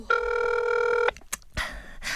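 A ringback tone plays on an outgoing phone call: one steady electronic purr lasting about a second, then a couple of sharp clicks and soft rustling.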